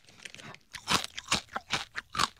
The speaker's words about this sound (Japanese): 中が空洞、意外と硬かったな。ねぇ、食べました。